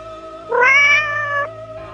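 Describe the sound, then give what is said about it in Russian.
A cat gives a single meow of about a second, rising in pitch and then holding before it cuts off. It sounds over a steady, faint background tone. “Котик ты мой котик, тепленький животик.”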